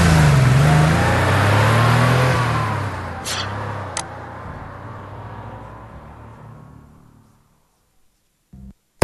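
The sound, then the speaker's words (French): A car speeds along a straight beach boulevard, its engine roaring loudly and then fading steadily into near silence over several seconds, with a few brief sharp clicks along the way and at the end. “Domingo Falco roule très vite, mais un kilomètre plus loin, sur la ligne droite du boulevard Manganimangua, devant la plage d'Aquapinto”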